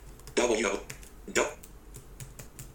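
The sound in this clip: Typing a web address into a browser on a computer keyboard: a quick run of light clicking keystrokes throughout, with a couple of louder, longer bursts early on.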